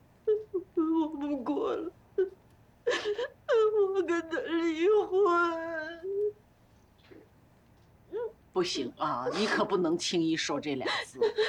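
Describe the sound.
A woman crying in bursts of wavering, high wails and whimpering sobs, separated by short quiet pauses before a final run of broken sobbing.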